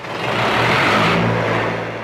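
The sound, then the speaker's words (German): A diesel generator runs in a clothing factory in Bangladesh with a loud, steady engine drone. Its low rumble and broad mechanical roar hold evenly throughout, with no voices. “Noch läuft der Generator in Hassans Fabrik, doch der Dieselkraftstoff ist rar und teuer.”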